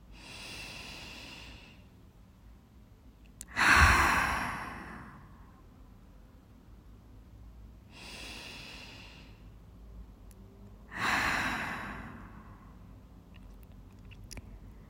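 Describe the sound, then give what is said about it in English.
Slow deep breaths during a guided relaxation and massage practice: four long breaths with no talk over them. Two are soft and two are louder and fuller, spaced several seconds apart. “Let's take two more deep breaths together.”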